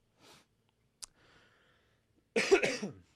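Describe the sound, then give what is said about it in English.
A single harsh, raspy throat clearing from a throat full of phlegm, loud and brief near the end, after faint breathy sniffs and a short click. “I don't know why I have to keep clearing my throat like that”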